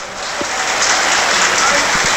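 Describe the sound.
Panathinaikos football crowd applauding as a substitution is made, a young centre-back coming on for a Dutch defender. The clapping is a dense, steady wash of noise that builds slightly at the start and then holds, with a few low thumps underneath.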